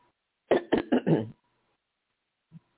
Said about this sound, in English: I think I must have cleared my throat once too many.